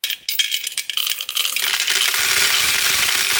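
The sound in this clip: Coins rattle inside a piggy bank, starting with a few scattered metallic clinks and building into a loud, dense, continuous jangling as the bank is shaken.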